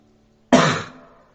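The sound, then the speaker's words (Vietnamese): A woman clears her throat once in a short, gruff burst that starts sharply and fades within about half a second. “Nét mặt của Phương Bộ Lôi cứng đờ, chị ta đẳng hắng.”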